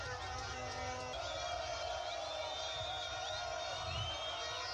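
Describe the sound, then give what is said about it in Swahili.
Crowd cheering a goal at a local football match at Kung'ombe, scored by a player from the village: a faint, continuous roar of massed voices with scattered whoops and shouts, steady throughout. “ukiona lile shangwe limeshangiliwa hadi na wananchi wa Kung'ombe, maana aliyofunga ni kijana wao kutoka hapa hapa Kung'ombe”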